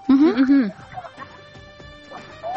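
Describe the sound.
A hen clucks in a few short, throaty calls near the start, with a person talking over and after them.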